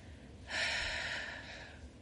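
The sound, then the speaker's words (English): A deep breath during a guided relaxation exercise: a soft, airy rush of breath that swells after a brief quiet moment, then fades slowly. No voice is heard over it. “And inhale. And exhale,”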